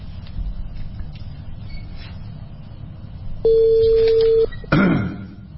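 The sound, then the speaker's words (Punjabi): A telephone call being placed: a steady single-pitched tone holds for about a second, then a short burst of noise follows over low background rumble. “ਮੈਂ ਇਹਨਾਂ ਨੂੰ ਕਾਲ ਕਰ ਦਿੱਤੀ ਹੈ ਹਾਂਜੀ”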